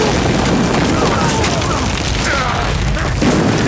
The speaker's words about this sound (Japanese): なぜ我々の砲弾が味方の陣地に落ちるんだ。